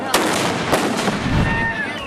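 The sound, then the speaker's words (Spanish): Gunpowder blasts set off by hammer strikes at a religious festival, a few sharp booming cracks breaking over a dense, continuous noisy background. “que uno haga esa cosa con ese martillo y te explote todo en la cara”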